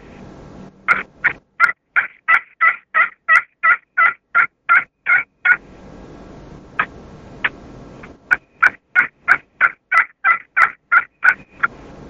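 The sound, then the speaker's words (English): Soft turkey yelps made with a dual-threat friction hunting call. A long, evenly spaced run of many short notes is followed by a pause with a couple of faint notes, then another steady run of yelps. “I like to let the gobbler to get on the ground before I start calling to him. But if I do call to him, I want to give a real soft call.”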